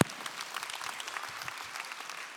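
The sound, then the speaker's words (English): An audience applauds parents who got their children through the first week of school. The clapping starts sharply, then stays steady and even at a moderate, fairly faint level throughout. “Go ahead and give them a round of applause.”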